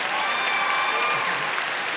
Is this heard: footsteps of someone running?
no